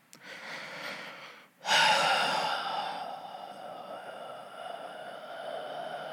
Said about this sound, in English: Like I just breathed out for dead air.